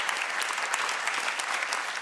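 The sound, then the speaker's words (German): Audience applause for a band: dense, even clapping at a steady level from start to finish, with no voices standing out. “Schön, dass ihr da seid. Das ist euer Applaus.”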